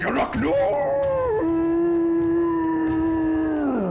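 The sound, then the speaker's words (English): A voice imitates a squatting toad demon's foul screech, one long drawn-out wailing cry that climbs at first, holds a steady tone, and then drops away at the end. “It climbs to the top of the statue of Zariel and sits there, squatting, and it emits this foul screech.”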